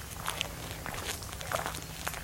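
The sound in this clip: Footsteps of someone walking through the Louisiana wetlands, faint and soft, a few irregular steps over a quiet, steady background with no talk.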